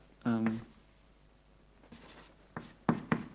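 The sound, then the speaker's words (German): Scratchy strokes of someone redrawing a diagram on a board: a brief voice at the start, then a few short, separate scraping strokes. “Jetzt wird es schwierig, weil ich das Diagramm nicht mehr da habe. Das habe ich gerade weggewischt. Dann zeichne ich es da rechts nochmal hin.”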